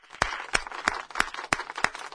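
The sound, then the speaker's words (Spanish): Rhythmic audience clapping sounds as seven sharp, evenly spaced claps in a steady beat, quiet and crisp, with little sound between the strikes. “Un aplauso para los dos. ¡Qué brillante! ¡Bravo!”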